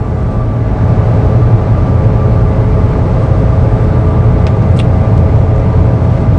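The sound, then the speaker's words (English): A car engine runs with a loud, continuous low rumble and road drone that holds steady throughout, with no talk over it. “That is the engine.”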